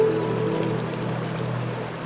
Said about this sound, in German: Ganz am Ende der grünbewachsenen Schlucht, durch die der Tessaoud-Fluss hindurchrauscht.